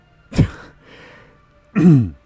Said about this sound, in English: So I'll clear my throat there.